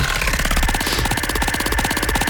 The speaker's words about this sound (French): On lance la roue et tu l'arrêtes quand tu veux avec un stop.